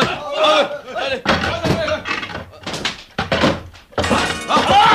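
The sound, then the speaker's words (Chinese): Wooden crates are forced open, with heavy wooden thunks, knocks and cracking blows mixed among loud, overlapping voices. “即刻打开啲木箱。”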